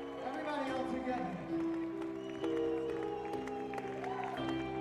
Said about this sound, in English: Just listen to the audience. This is so great.